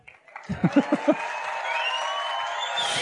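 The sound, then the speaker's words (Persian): Hand clapping comes as a short burst of a few quick, crisp claps, followed by a steady, faint tonal background that continues to the end. “بزن دستو برای من داره دست میزنه بابا. بزن بابا.”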